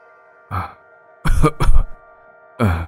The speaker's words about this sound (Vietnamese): Thì đột nhiên có tiếng người đàn ông bên ngoài ho khụ khụ mà nói vọng vào trong.